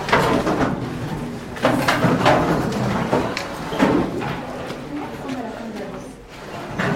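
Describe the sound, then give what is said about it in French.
Chairs being pushed against tables in a classroom, a jumble of scraping and knocking clatters spread across several seconds while people talk over the noise. “Alors, vous poussez les chaises contre les tables et on se retrouve jeudi.”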